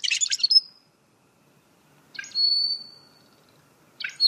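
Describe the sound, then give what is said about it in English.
Rusty blackbird calls: three bursts of high, squeaky, buzzy chirps, the middle one drawn into a thin, steady whistle-like note, separated by silence, with the last call cut off at the end. “That's the call of the rusty blackbird, a ubiquitous species that has caught the attention of the Audubon Society.”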